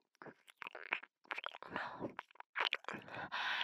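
Wet chewing and mouth sounds while tasting something: many irregular smacking and crunchy bursts separated by brief gaps.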